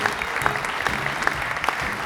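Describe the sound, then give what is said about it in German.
Clapping at a community awards ceremony honoring the top national and international athletes, a steady patter with several sharp individual claps standing out above the even background. “So erklang der Applaus für die national und international besten Athleten aus Lies.”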